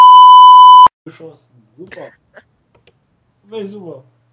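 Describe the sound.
A single loud, steady, high-pitched censorship bleep tone that cuts off abruptly, followed by brief fragments of talk.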